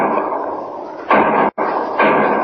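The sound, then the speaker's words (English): Gunshots sound in a radio drama: a few sharp, loud reports cut through steady, dense noise. A brief dropout falls between them. “Three shots. That means trouble back at the gas station. Something's happened.”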